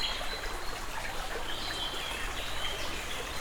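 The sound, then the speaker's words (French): A small stream flows through a nearly untouched forest, giving a steady, bright rushing burble of moving water that stays even and continuous throughout, with no voices. “Une légère pente m'a permis de regagner ce petit cours d'eau.”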